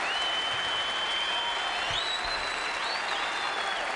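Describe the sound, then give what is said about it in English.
Audience applause at a live radio show, a steady, dense wash of many hands clapping that holds at an even level from start to finish. “I love the audience noise. You're only as good as your audience, you know.”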